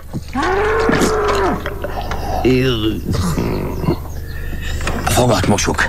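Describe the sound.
A bull moos on a farm: a long, low, drawn-out bellow comes first, followed by shorter lowing calls, all loud and close, with voices mixed in around the calls.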